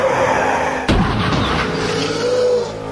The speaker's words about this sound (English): What's this? Nick the Rat has blown a tire.